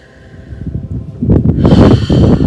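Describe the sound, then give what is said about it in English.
A nice deep breath in, taken along with a listener: a loud, airy rush of breath that swells steadily over about two seconds and stays strong to the end. “Just taking a nice deep breath with me.”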